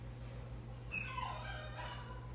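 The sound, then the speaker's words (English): A dog's odd, cartoonish whining noise, faint and drawn out over a steady low hum, with thin high tones wavering for a second or so. “Oh, that's my dog. I was like, okay, it's fine. Oh, that's your dog? That is such a weird noise.”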